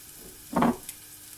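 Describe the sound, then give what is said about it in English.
Onion frying in butter in a pan for risotto: a faint, low background sizzle broken by one brief, louder burst of stirring noise midway. “Now you want this to be soft, you don't want it to be burnt, so you have to be careful because the onion does kind of absorb the butter and then it can burn quickly.”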